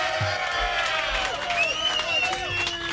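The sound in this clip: A live show audience cheers and applauds steadily. Clapping and shouting voices blend into a dense crowd roar that holds at one level throughout.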